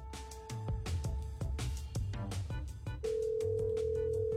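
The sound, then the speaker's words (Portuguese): Ringback tone of an outgoing telephone call: a steady, unbroken tone that starts about two-thirds of the way in, after a stretch of busy, clicky noise. “Estamos ligando para outra pessoa aqui. Vamos ver se a pessoa atende a gente, né?”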